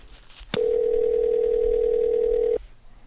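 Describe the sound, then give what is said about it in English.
A phone line tone plays while a call is dialed out: a single steady, mid-pitched electronic tone that opens with a faint click, holds for about two seconds and then cuts off abruptly. “So real quickly, we'll dial him up.”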